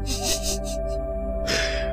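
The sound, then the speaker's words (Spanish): A deep breath drawn in during a breathing exercise, heard as airy, hissing bursts of inhalation over a steady tonal background. “Y ahora vamos a volver a respirar profundo.”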